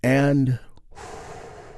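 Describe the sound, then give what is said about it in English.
A big, deep healing breath taken together during a guided relaxation. A short voiced sound comes first, then a long, soft, airy breath that stays fairly quiet. “a big, deep healing breath that we do all together. Here we go.”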